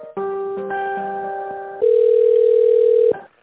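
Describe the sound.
Telephone line tones sound while a call is being transferred. Steady electronic tones shift once to a single continuous lower tone, which then cuts off abruptly. No one speaks.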